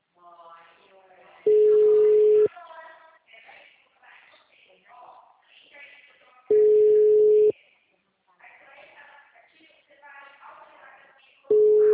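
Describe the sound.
A telephone busy tone sounds after a dropped call: three long, steady, mid-pitched beeps at regular intervals, the last one cut off. People talk in the gaps between the beeps.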